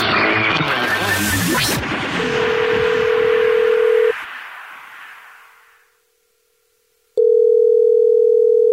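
A telephone call being dialed: after a brief burst of mixed sound, a steady line tone sounds for about two seconds, drops into silence, then returns as a loud, sustained tone to the end.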